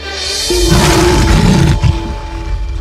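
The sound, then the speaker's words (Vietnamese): An angry lion gives a loud, drawn-out roar, a harsh, rumbling growl lasting a few seconds with a steady tone beneath it. “con sư tử nổi đóa vì có người làm gián đoạn bữa tối được mong đợi từ rất lâu. Nó thấy bóng của Aaron và gầm lên một cách giận dữ.”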